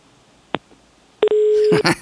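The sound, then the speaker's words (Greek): A landline telephone rings: a single click, then a sharp burst and a steady, mid-pitched electronic tone holding for about half a second, with further busy sound following at the end. “Χτυπάει τηλέφωνο, για να δω. Χτυπάει τηλέφωνο, για να δω. Παρακαλώ, στη γραμμή.”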